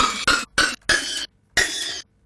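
A sampled human cough is played as notes on a keyboard. It comes as a series of short, tonal bursts of varying length separated by brief silences, each with a bright, pitched ring.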